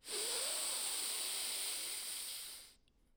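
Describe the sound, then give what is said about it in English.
Air drawn steadily in through the nose during a guided mindfulness breathing exercise, a smooth, airy hiss with a faint whistling edge that holds for nearly three seconds, then cuts off. “Let's do that one more time. Ready, inhale through the nose.”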